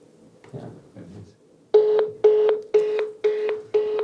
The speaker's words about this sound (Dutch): Dus ik ga nu bellen en ik hoop dat hij opneemt.